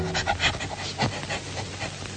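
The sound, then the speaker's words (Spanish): A female hunting dog pants and sniffs with her nose pressed to the ground as she follows the game for her hunter owner. The breaths come as many quick, breathy bursts in a steady rhythm, fairly loud and alone, with no voices. “Con el hocico pegado a la tierra, huele que huele, viene la perra, siempre siguiendo la pieza mejor, para su dueño el cazador.”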